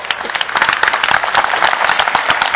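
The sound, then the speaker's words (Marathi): Audience applause at a Buddhist teaching session, a dense, steady wash of many hands clapping at once, loud and continuous throughout, with no speech. “A stronger clap from the left than from the right.”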